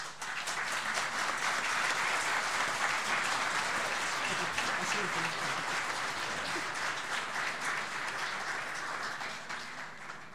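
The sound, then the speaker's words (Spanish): Applause welcoming a doctor to speak at a Catholic formation talk: a long, steady burst of crowd clapping lasting about ten seconds, evenly dense and tapering slightly at the end. “Recibimos al doctor Jorge Randall con un gran aplauso.”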